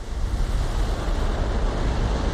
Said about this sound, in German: Das Wasser und der Wind und die Wellen werden immer wilder.